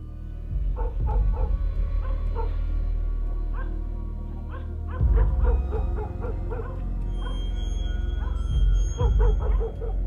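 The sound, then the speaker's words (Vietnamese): Dogs bark in irregular bursts of sharp barks and yips, with many barks clustered in quick runs and a steady low rumble underneath. “mấy con chó cứ thế sùng sục chạy sang bên đó, rồi chõ vào bên đó mà sủa nhóm nha nhóm nhẳng lạ lắm.”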